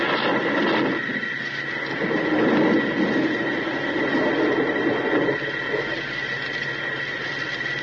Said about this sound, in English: We're about to start the retrojets, and we'll be alongside you right away.